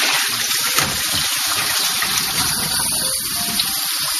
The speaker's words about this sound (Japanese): 今水洗に入りました